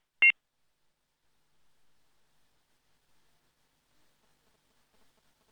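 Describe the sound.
A single short electronic beep from a telephone line after a call disconnects, sharp and mid-high in pitch, followed by near silence.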